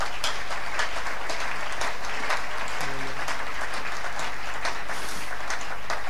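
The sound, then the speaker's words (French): Church audience applauding in praise of God, a dense and sustained clatter of many hands that stays fairly even for several seconds, with a brief vocal sound partway through. “Est-ce qu'on peut encore acclamer Dieu?”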